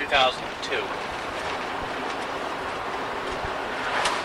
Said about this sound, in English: I'm driving in my Jeep. I'm here in Nutley. I'm heading for my storage in Islin.